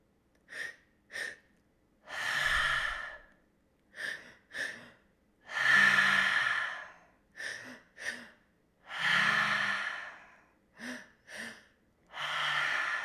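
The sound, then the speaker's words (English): Deep breathing: two quick inhales fill the chest, then a long, loud exhale pours out through the mouth. The pattern repeats four times, with short pauses between. “taking another breath and filling up the chest all the way up to the top of the throat, and then letting it all out your mouth. So that's going to sound like this.”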